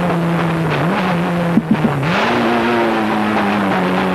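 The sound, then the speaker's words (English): Engine of a Toyota Celica race car built by All-American Racers, driven hard on a street circuit in Del Mar lined with concrete barriers: a loud, sustained roar that dips in pitch, gives a few quick pops, then climbs again. “He's just driving the shit out of this Toyota Celica that Dan Gurney's All-American Racers, like, built.”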